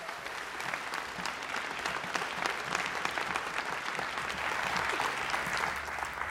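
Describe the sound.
An audience applauds to welcome a pastor to the stage, with dense, even clapping from many hands sustained at a steady level throughout and no clear voices over it.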